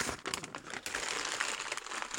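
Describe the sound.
Wrapping paper is torn and crinkled while a gift is unwrapped, giving a faint, steady rustle broken by sharper crackles.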